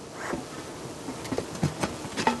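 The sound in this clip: Honeybees buzz in a colony during a weekly hive inspection, a faint, steady hum with a few brief louder swells, and no voices.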